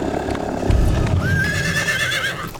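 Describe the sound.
Horses ridden along a river, hooves clip-clopping while a loud, high whinny cuts in midway and trails on above the hoofbeats.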